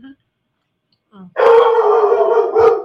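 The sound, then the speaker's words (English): A dog gives a loud, sustained howl that begins after a short quiet stretch with a couple of faint earlier sounds, then holds a steady wavering pitch to the end. “See, my dog even agrees. Right, Ty?”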